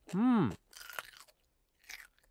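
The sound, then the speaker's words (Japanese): Crisp crunching of homemade pickled cucumber being chewed, in two brief bursts of bites after a short voiced sound at the start. “きゅうりのお漬物作ってみたっちゃけど、味見してくれん？”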